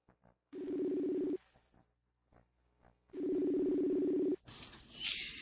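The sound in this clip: Telephone ring tones as a call is placed, two long, low buzzing tones separated by a pause of about two seconds, followed by a click and a burst of noisier sound at the end.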